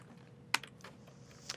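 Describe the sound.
A few faint keystrokes on a computer keyboard as a database command is typed: soft, irregular clicks with one sharper tap.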